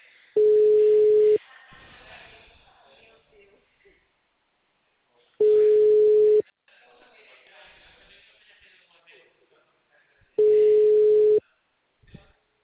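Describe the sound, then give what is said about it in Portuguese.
A telephone busy signal sounds as three loud, steady, mid-pitched tones, each about a second long and spaced roughly five seconds apart, with faint low sounds in the gaps between them. “Ele tá falando com alguém que está em outra chamada. O número está ocupado.”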